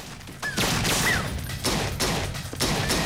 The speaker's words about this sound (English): Piper kicks the glass doors in and enters, firing two handguns as he moves. He gets one of Santiago's men, but the returned fire of another causes him to jump for cover behind a corner.